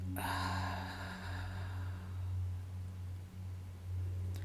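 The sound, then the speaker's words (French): A deep breath drawn in through the nose and let out through the mouth during a gentle yoga and meditation session, a long soft airy rush that fades away over a low steady hum, no talking. “Prenez une grande inspiration par le nez et expirez par la bouche.”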